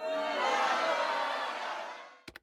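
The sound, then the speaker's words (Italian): A short theme jingle for the segment Caramba che concerto: a bright, dense crowd-like chorus holds a sustained tone for about two seconds, then fades out and ends with a couple of quick clicks. “Finalmente abbiamo la nostra sigla per la nostra rubrica Caramba che concerto.”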